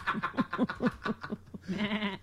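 A ram bleats in a rapid, stuttering run of vibrato pulses and then a longer, held, nasal bleat with rich harmonics. The call is moderately loud and heard alone.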